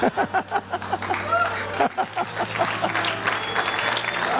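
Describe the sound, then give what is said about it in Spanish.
Applause from a church audience during a sermon: dense, steady clapping that runs through the whole clip, with a few voices mixed in. “Dele fuerte ese aplauso porque es para Dios.”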